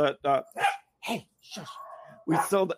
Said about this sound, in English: that's Dorothy kicking off, barking. Can you hear it?